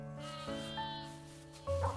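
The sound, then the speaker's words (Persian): Sheep bleating on a farm: several overlapping, wavering, harmonic bleats, fairly loud, with a fresh cry breaking in near the end. “آره گوسفندن. سب کن. اینا خیلی بامزن.”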